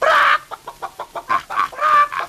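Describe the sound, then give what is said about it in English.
A toy's sound button plays recorded chicken clucking: one longer opening squawk, then a run of many short, evenly spaced clucks that grow louder toward the end, with no talking over them. “When I want to raise the dickens, I press this button, and out comes chicken.”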